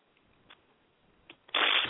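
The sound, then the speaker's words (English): A deck of therapy cards is shuffled: a few faint, soft flicks, then a sudden loud, dense riffling burst that fills the last moments. “I was going to do the Archangel Michael cards, but I'm going to do the therapy cards for you.”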